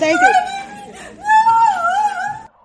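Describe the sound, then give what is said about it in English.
A woman whines and sobs in two drawn-out, high-pitched, wavering wails with a crying catch in the voice, loud and close. “She's whining and crying and sobbing through.”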